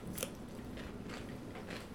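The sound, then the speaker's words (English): Faint crunchy bites and chewing of a pickle spear served with a sandwich, a few soft crisp snaps spread irregularly over a quiet, low background hum. “they throw in a pickle spear. Yes. With each sandwich, and we wanted to try it live on the air”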